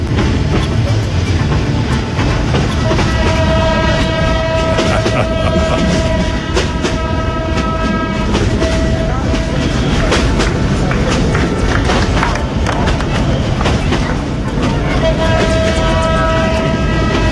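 A moving train rumbles loudly and steadily on the way to Addis Ababa, with a clickety-clack wheel rhythm and a thin metallic squeal that comes and goes over the dense roar throughout.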